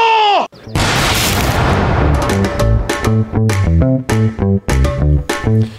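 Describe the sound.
Gunfire from a firing squad in a staged execution: a loud, sharp volley after a brief opening cry, then a series of heavy, rhythmic booming hits.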